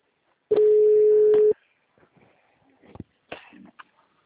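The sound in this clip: A telephone call connects with one steady mid-pitched tone lasting about a second, followed by a few short clicks and faint, brief sounds on the line.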